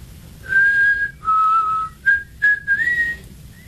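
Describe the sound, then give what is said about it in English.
A person whistles a short melody of several clear, high tones, a few held notes followed by shorter ones with a brief rising slide, loud and alone. “I taught you how to whistle.”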